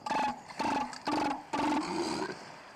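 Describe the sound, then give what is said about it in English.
Elephant seal calls: four loud, low, guttural roaring bursts with rich harmonics, the first three short and evenly spaced, the last drawn out longer, heard alone. “Today's Name That Sound is a seal. Different seals make different sounds. That one was an elephant seal.”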